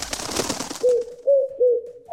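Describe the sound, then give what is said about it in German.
A pigeon flutters its wings in a short burst of soft rustling. A few short, low, resonant coos follow, spaced evenly, with the last one cut off. “Ist es unser Ticket-Täubchen, das gurrt und flattert.”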